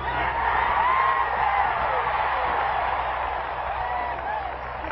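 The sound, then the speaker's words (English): A crowd at a Mississippi football game cheers wildly for Governor Ross Barnett's speech, a dense, continuous roar of shouts and whoops that holds steady at high loudness before easing slightly. “But it was Ross Barnett that got the crowd going wild.”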